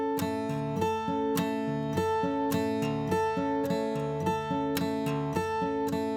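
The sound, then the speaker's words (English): Clawhammer-style guitar playing a drop-thumb pattern at the seventh fret, a steady, rolling rhythm of plucked notes alternating between bass and higher strings, played alone. “And I'll go ahead and use just this seventh fret position to kind of demonstrate what a drop thumb would sound like.”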